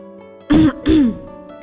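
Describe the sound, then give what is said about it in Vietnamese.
A light cough in two short, throaty bursts close together, heard alone against a faint steady hum. “Bạch Ngọc Đường ho nhẹ một cái”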